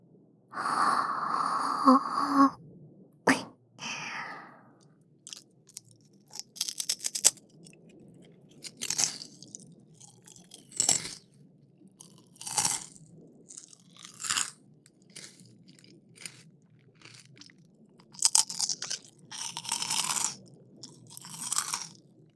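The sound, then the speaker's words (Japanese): Crunchy chewing of rice crackers: many crisp, sharp bites and crunches in an irregular rhythm, loud and alone with no talk. “おせんべいも美味しい。いくらでも食べられる。”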